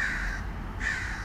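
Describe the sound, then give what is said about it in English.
A crow cawing: two long, harsh caws separated by a short gap, over a steady low background. “the only sound you hear is traffic and an occasional crow.”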